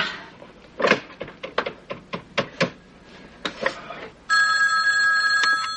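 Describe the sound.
Telephone dialing and ringing: a run of sharp clicks and taps at an uneven pace, then a steady, bright, buzzing ring tone that starts abruptly and holds loud to the end, with no voices.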